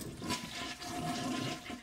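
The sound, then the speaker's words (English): A toilet flushes with its tank lid removed during a ballcock valve replacement, making a faint, steady rush of swirling water throughout. “Then remove the tank's lid and flush the toilet.”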